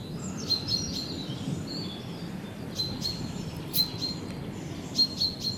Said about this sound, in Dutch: Kijk, dat is alarm hè, van die Merel. Die is ah, dus nu wel echt even alarm aan het slaan.